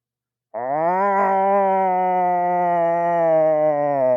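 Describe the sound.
A person imitates the pained howl of a dog having quills yanked from its mouth: one long, loud, sustained vocal wail with a rich harmonic tone, starting abruptly after silence and holding steady, with no other sound.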